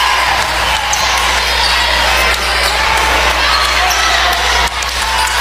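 A basketball is dribbled during a high school girls' game, its bounces thumping under a loud, continuous roar of crowd noise and cheering.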